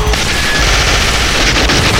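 Gunfire in a dense, continuous rattle of rapid shots that stays loud and harsh throughout, with no pauses and no voices.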